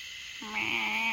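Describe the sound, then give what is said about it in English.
One frog calls on misty, calm water during a slow morning paddle, producing a sustained nasal, buzzy tone. It begins partway through and holds steady to the end over a faint constant hiss. “The frogs. There's like one frog that's cracking me up right now with this tone.”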